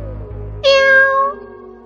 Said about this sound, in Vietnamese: Triển Chiêu đưa mắt nhìn, phát hiện một con mèo mắt đỏ đang ngồi cạnh mình